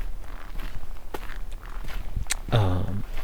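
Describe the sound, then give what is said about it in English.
Footsteps along a forest trail with fallen trees to step over, an uneven series of soft crunching steps and brushing rustles, growing heavier toward the end. “as I'm walking along here, there's trees and stuff over, you have to step over, so there's that”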